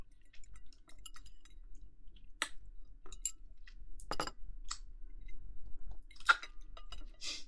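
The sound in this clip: Faint chewing of food being fed by mouth in a private dining room, sparse wet clicks and smacks scattered over a low steady hum, with no talk.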